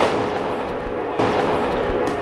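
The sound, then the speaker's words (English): Police grenades explode at a riot, heard as heavy blasts within a dense, continuous wash of loud noise, with one sharper burst partway through. “The police have started throwing grenades.”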